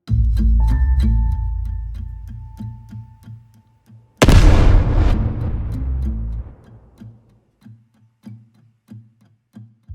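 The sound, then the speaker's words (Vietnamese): A huge explosion erupts as one sudden, loud blast with a long, rumbling decay. Before it come steady ticking and a held tone, and soft rhythmic ticks resume as the roar dies away. “Tiếng nổ khủng khiếp khiến cho đất trời chao đảo dữ dội.”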